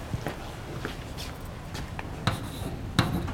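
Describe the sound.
Writing on a board during a lecture on tensors produces faint, scratchy strokes with a few sharper taps, soft against a low background.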